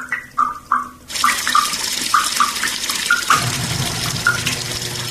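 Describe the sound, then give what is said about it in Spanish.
Water escapes from a running tap. A few bright, drip-like plinks are followed by a sudden steady rushing gush, and tonal plinks continue over the flow. “El agua que se escapa.”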